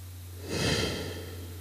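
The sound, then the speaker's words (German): A single slow, deep breath in and out during guided meditation, swelling softly and then fading over a steady low hum. “Wir atmen jetzt gemeinsam ein paar Mal tief ein und aus. Atme ein und aus.”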